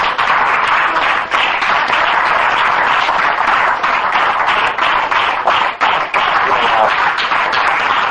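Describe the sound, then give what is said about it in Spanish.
Audience applause at a religious gathering right after a prayer: loud, dense, sustained clapping that holds steady throughout, with a few sharper claps standing out from the crowd texture. “Dale ese aplauso a Jesús.”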